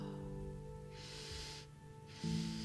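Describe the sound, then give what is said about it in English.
Two deep, airy inhales during a breathing meditation, each a soft breathy rush, set over a low, sustained musical drone. “Sending that first inhale into your root chakra to clear out any feelings of disconnection”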